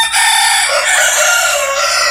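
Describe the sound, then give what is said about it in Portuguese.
Two roosters crowing: a loud, harsh, raspy crow that fills the whole short stretch without a break, with no voices. “Dois galos cantando.”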